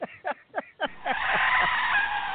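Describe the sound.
Tires skid under hard braking in a racing video game on the Bristol track: a few short chirping bursts, then a loud, steady screech that holds to the end.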